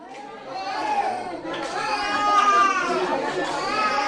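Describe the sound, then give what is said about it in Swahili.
Children's voices fill the children's ward of Hoima referral hospital in Uganda, a steady babble of young chatter that grows louder over the stretch. “Hapa ni kwenye wodi ya watoto katika hospitali ya rufaa ya Hoima.”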